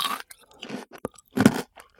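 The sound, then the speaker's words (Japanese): Chewing of a crunchy, sweet bite with a crisp outer layer and a soft, jiggly filling: a few faint, short, crisp crunches separated by quiet gaps, with no talk. “何これ、歯ごたえ面白い。サクサクして口の中が気持ちよくて楽しい。”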